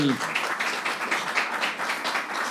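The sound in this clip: Audience applause, a continuous rush of clapping with gentle swells in loudness, sustained through the whole stretch.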